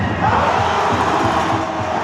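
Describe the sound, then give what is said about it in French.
Crowd cheering fills a handball match at the Maison des Sports in Clermont-Ferrand, where fans support the Cournon handball team: a dense, loud, steady roar of many voices with no pauses throughout. “Une ambiance survoltée dans la Maison des Sports de Clermont-Ferrand. Les handballeurs de Cournon ont donné beaucoup d'espoir au public malgré la défaite.”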